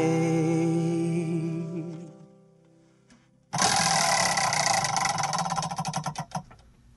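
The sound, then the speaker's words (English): A prize wheel of eight being spun gives a loud, rapid clicking rattle that starts abruptly after a fading sung tone, then slows as the ticks spread farther apart before stopping. “I am going to spin the wheel of eight.”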